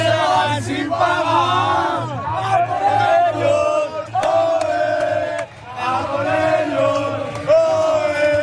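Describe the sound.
Crowd cheering at a public viewing of a World Cup final: a loud, sustained roar of many voices shouting and chanting, with brief dips before swelling again.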